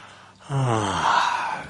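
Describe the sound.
People yawning together: a long, drawn-out voiced yawn that starts after a brief quiet moment and sinks into a sighing exhale lasting over a second.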